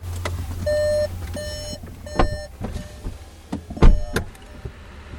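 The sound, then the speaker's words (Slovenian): Car warning chimes sound as a vehicle fitted with test equipment is switched on before a drive: a few electronic beeps, then several dull thumps and clunks over a low hum. “Zdaj smo prižgali vozilo in se bomo odpravili na vožnjo, tako le opremljen.”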